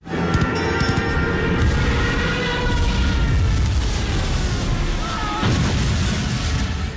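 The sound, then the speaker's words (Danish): A war film sound effect of Ju 87 Stuka dive bombers attacking ships with bombs gives a loud, sustained barrage of explosions and sharp bursts over a heavy low rumble, dense and unbroken from start to finish. “det er jo en styrtbomber JU-87 Stuka, der angriber skibe med, med bomber”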